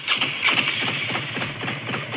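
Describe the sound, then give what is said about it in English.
A Harley-Davidson motorcycle engine idles with a brief, rhythmic, lumpy throb of low pulses that is steady and moderately loud, with no voices. “You know what that sound is? Yeah. What? It's a Harley.”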